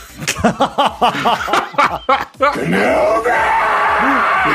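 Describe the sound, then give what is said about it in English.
Voices imitate a Star Wars cantina crowd screaming a name. A string of short, bouncing, laugh-like cries gives way to a loud, sustained, strained scream that holds to the end. “That was the sound of everyone in the cantina screaming his name.”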